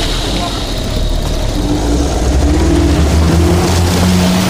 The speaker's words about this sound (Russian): Вставляет ключ в замок зажигания, заводит двигатель. Уезжает.